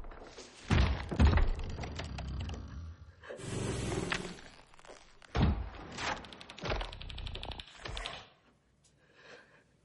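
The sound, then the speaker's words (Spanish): Heavy thuds and rasping snorts from a four-legged, rough-skinned monster descending a staircase in A Quiet Place (2018), several loud bursts of thumping and breathing that fade to near silence at the end. “Observa al monstruo bajando la escalera.”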